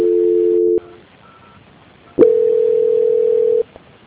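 Electronic telephone call-transfer tones on a phone line: a steady tone, then a brief faint beep, then a click and a second, longer steady tone that cuts off cleanly. No voices.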